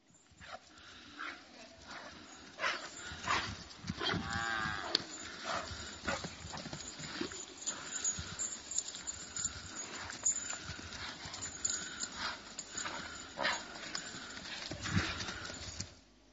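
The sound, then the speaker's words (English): A calf runs in the pasture for the first time, its hooves making a faint, irregular run of clip-clopping thuds that lasts the whole stretch. “The image or the video I'm going to show you is YouTube. You can go look. A calf in the pasture for the first time.”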